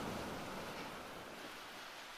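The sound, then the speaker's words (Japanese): Ocean waves wash in a soft, steady hiss of surf, faint and even throughout with no distinct breaking crashes. “体が波でゆらゆら揺れるのがゆりかごみたいに感じる。”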